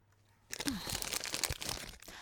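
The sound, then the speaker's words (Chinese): Crunching and crinkling of someone eating a chocolate mushroom-shaped biscuit snack, chocolate cap first. After a quiet half second, many crisp crunches and rustles follow in a dense, irregular run at moderate loudness. “蘑菇粒当然应该从巧克力部分开始吃了。”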